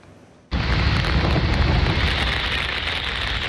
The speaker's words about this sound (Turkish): Sağanak geçişleri gece saatlerinde başladı. Gün boyu aralıklarla devam etti. İstanbul'da etkili olan yağmur gündelik hayatı olumsuz şekilde etkiledi.